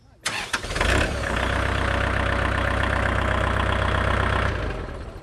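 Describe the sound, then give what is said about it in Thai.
A tractor engine in neutral cranks briefly, catches and settles into a steady, rumbling idle that holds evenly for several seconds before easing off slightly at the end. “หลังจากนั้นเราก็ทำการสตาร์ทเครื่อง”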